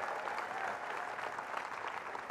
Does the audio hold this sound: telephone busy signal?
no